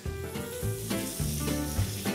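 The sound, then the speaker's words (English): Pork sizzling in a frying pan, spread out with a spatula and left unstirred: a soft, continuous hiss and crackle with no talking. “Now, once the pork's in, just spread it out slightly with your spatula. But after that, do not stir it, okay?”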